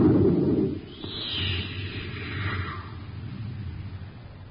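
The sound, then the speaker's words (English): Rocket ship blasting off: a loud rumbling burst at the start, then a low roar carrying a whooshing tone that sweeps downward in pitch, with a thin, lo-fi quality. “All right. We're blasting off.”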